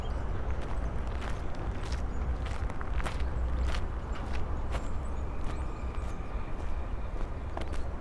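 Footsteps of people walking along a path through a large city cemetery past an ornate grave with stones and figures: many steady, light, faint steps over a low, constant background rumble.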